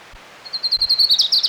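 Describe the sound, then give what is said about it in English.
Orange-crowned warbler song, a rapid, high, thin trill of many evenly spaced notes that starts faintly and grows louder toward the end. “Here's Orange Crown Warbler number 4.”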